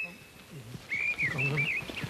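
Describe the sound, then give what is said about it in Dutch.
A mistle thrush sings a brief phrase of clear, fluted whistles that rise and dip, fairly faint, with low talk underneath. “Nu moeten we het over de grote lijster gaan hebben, want hij meldt zich.”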